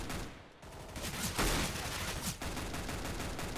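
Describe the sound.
Gunfire in a shooter video game, a dense, continuous clatter of rapid shots that rises into a few louder bursts without any pause.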